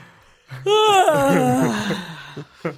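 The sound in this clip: A long, drawn-out yawn vocalized straight into a microphone, a moaning voiced sound that swells and then trails off, with faint breathy sounds at the very start and end.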